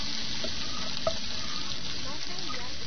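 Food frying and being stirred in a pan gives a steady, even sizzling hiss with one brief clink partway through.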